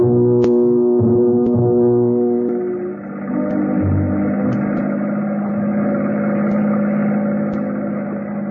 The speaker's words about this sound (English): The speedboat slows down and then glides gently in alongside the gambling ship.